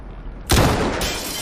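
Single sniper rifle gunshot: a sudden, loud crack that bursts out of low background noise and trails off into a sustained, ringing decay.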